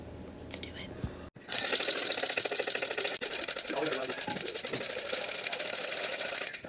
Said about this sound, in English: Okay, it said whisk until foamy. Do you think this is foamy?